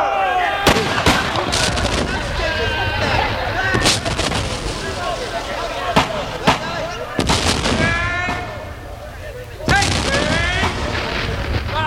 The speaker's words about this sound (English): Form a battle line! Fire by file! Form a battle line! Ready? Take aim! Fire!